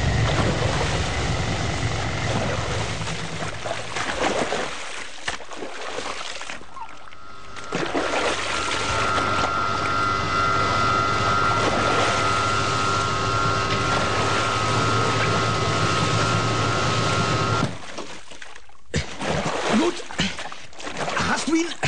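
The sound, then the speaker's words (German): A driverless motorboat races toward the coast, its engine a steady droning whine held for several seconds over rushing water and wind noise. “Das herrenlose Boot rast in Richtung Küste.”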